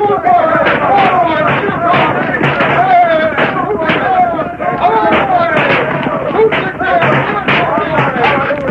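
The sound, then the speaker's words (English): Dense gunfire erupts as desperate outlaws open fire on a ring of armed men charging down on their buildings, many rapid shots crowding together loudly and continuously with voices mixed in throughout. “Then, surprised and desperate, the Gila kid and his men opened fire.”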